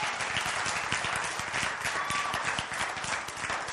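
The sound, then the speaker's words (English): Church audience applause: a dense, steady wash of many clapping hands, fairly loud and sustained for the whole stretch without noticeable breaks or voices. “We'd like to give these guys a hand.”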